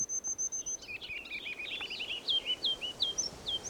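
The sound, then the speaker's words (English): A ruby-crowned kinglet calls in a run of high, thin chirps and twittering notes, many quick repeats in an uneven rhythm over a faint steady hiss. “Here's a ruby crown kinglet.”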